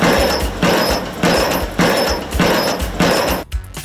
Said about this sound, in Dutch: de wasmachine probeert te repareren